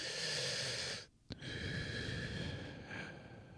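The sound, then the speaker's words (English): Deep breathing: one long, airy, unvoiced breath, a brief pause, then a second long, steady breath that fades slightly toward the end. “Nice breath.”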